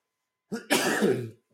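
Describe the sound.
Throat clearing from a dry throat: a short rasp followed by a longer, harsher clearing burst, heard alone with no talk.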